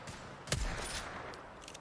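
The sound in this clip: A single sharp, loud rifle shot from a 30-30 repeater in the Apex Legends video game, during a pro league esports match, followed by fainter game noise.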